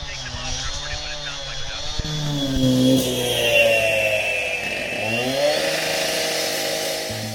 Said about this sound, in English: Now someone has started to saw through the concrete nearby